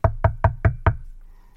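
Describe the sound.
Five loud, evenly spaced knocks on the front door of a house, followed by quiet.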